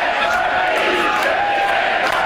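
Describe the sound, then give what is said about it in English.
A crowd chanting on election night at Parti Québécois headquarters makes a loud, dense, continuous roar of voices that stays at an even level throughout. “Quebec, a country, chanted the crowd at PQ headquarters.”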